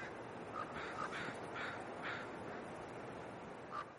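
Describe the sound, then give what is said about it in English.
Crows cawing, a few harsh, hoarse calls spaced roughly evenly, then a lone caw after a pause, all faint above a steady background hiss. “And as the crows caw off into the distance...”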